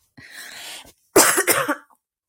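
A cough in two bursts: a softer, raspy throat-clearing sound, then a louder, harsher burst of coughing.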